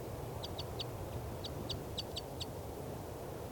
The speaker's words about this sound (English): I've got a net set up here underneath the nest. And this is the begging calls of the female.